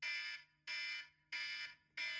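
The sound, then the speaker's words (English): A kitchen-style timer alarm goes off when a five-minute countdown ends, giving four evenly spaced, shrill electronic beeps in a steady repeating rhythm, each a sustained high tone with short gaps between. “I've got a timer, and it's going to run for 5 minutes. And when 5 minutes are up, we will hear this sound,”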